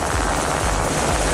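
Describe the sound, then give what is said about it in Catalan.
US military helicopters deployed in the Strait of Hormuz, intercepting and boarding a tanker, produce a dense, steady roar with a low, thrumming rotor pulse that holds at a constant loudness throughout. “I aquest és el so dels helicòpters del desplegament militar dels Estats Units a l'estret d'Hormuz, interceptant i abordant un vaixell cisterna”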